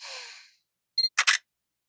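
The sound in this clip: A camera shutter snaps a photo of a nude person posed with an identity card: a soft breathy sigh, then a brief electronic beep and a quick double click.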